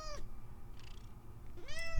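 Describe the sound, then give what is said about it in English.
A cat meows twice, one short meow at the start and another near the end, fairly quiet over a low background hiss. “Yeah, that's such a kitty.”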